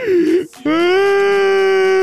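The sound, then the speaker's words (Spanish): Loud crying and sobbing from a distraught football fan: a moaning wail breaks off at a brief gasp, then a long, drawn-out cry is held at a steady, fairly low pitch. “Tengo que calmar, amigo, no puedo parar de llorar, amigo, no puedo parar de llorar.”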